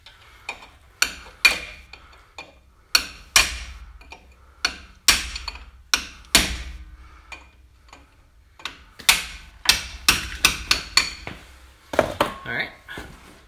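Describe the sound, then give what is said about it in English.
Sharp metallic hammer strikes drive shims into place with a punch, many crisp impacts in uneven bursts and quick runs, each with a short ringing decay. “Just drive them the shims in there. That's the way. That's it. There you go. Lock them shims the rest of the way in there.”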